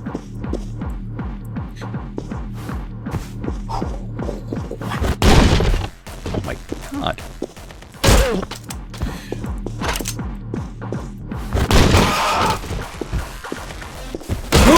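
Gunfire in a video game: a few loud, broad shot bursts cut through a rhythmic, throbbing mechanical loop and clanking game effects.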